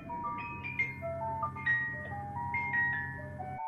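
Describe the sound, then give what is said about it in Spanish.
Tinkling melody from a piano-shaped music box with a ballerina, bright single notes plucked one after another in a slow tune over a steady low hum. “Y esta caja de música traía una bailarina. Entonces, esta bailarina tenía la caja de música.”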